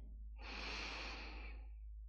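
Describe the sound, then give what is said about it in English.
A single long, deep breath is drawn during a guided meditation. The soft, airy rush swells and then eases over a faint, steady low hum. “Take a deep breath in”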